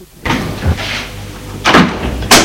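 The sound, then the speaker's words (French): Knocking on a door, heard as a few dull, heavy thumps spaced unevenly, with no voices. “On a frappé à la porte.”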